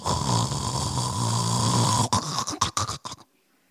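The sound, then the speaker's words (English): A voice imitates snoring: a long, steady, rasping snore for about two seconds, then a quick run of several short, choppy snorting bursts that cut off into silence. “I know some of you snore like that.”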